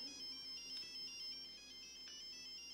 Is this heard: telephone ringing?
yes